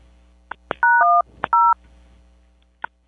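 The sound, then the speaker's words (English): Telephone keypad buttons are pressed during a call, giving three short, clear DTMF tones in quick succession, each a steady two-note beep, along with a few sharp button clicks before, between and after them. “You're hitting the buttons and you don't know what's happening. Because I can hear them still.”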